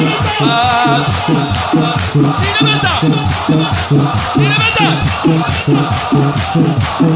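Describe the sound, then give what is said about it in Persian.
Mourners chant in unison while rhythmically beating their chests in a religious mourning ritual. Loud, steady, repeating thumps drive under the massed voices the whole way through, and a few higher shouted lines rise over the chant. “سینه بزن ببینم این دست نهید بالا. سینه بزن سینه بزن”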